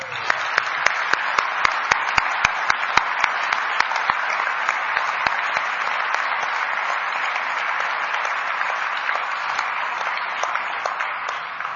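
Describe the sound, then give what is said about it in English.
A crowd of devotees applauds the decoration team at a Christmas celebration, producing sustained, dense clapping with a few sharp, louder claps standing out early on. “Can we please hear it for the decoration team?”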